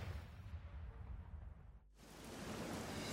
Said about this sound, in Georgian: არაფერი უხდება ბათუმს ისე, როგორც შხაპუნა წვიმა.